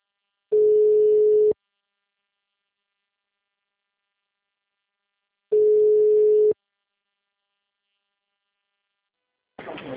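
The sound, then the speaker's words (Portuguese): Ringback tone while placing a phone call: two steady, single-pitched beeps, each about a second long, separated by a long silence, before a voice briefly begins at the very end. “que tô ligando. Tá chamando.”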